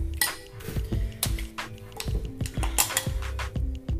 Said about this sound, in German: und fülle dann diese Champignons mit meiner Tomatenbruschetta.